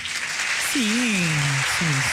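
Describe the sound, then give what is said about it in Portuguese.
Applause for a percussionist at an Angolan show comes as a continuous hiss of clapping throughout, while a voice calls out over it partway through. “E as palmas então? Não tem palmas pro Chakra?”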